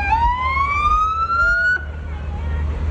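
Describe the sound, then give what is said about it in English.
A fire department brush truck's siren wails as one electronic tone that climbs steadily in pitch, then cuts off abruptly midway through, leaving a low engine rumble underneath. “This is the Brush 1 Fire Department unit.”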